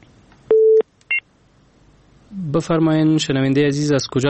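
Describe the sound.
A telephone tone sounds after a caller's line is cut off: two short electronic beeps, the second higher and briefer, followed by a voice speaking.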